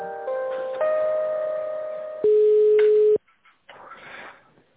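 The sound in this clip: Telephone line tones play while a call is being transferred: sustained electronic tones shift in pitch a few times, then cut off abruptly into near silence with faint noise.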